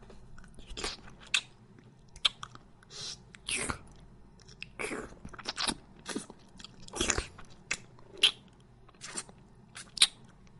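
Chewing of a matcha-flavoured meat bun: many soft, irregular bites and crunchy, wet chews, quiet and close, with no talk.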